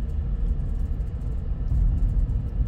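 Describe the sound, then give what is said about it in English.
Car engine running at half throttle, a steady low rumbling drone with a rough, throaty texture that swells slightly partway through and holds without a clear rev peak. “This is half throttle. Focus. There we go. I'm giving it half here.”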